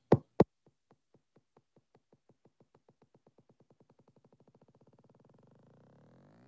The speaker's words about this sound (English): You may notice that the start of this waveform doesn't really sound like the continuous waveforms of the quasi-circular and moderately eccentric waveforms. Instead, you get this ticking behavior, which almost sounds like a heartbeat.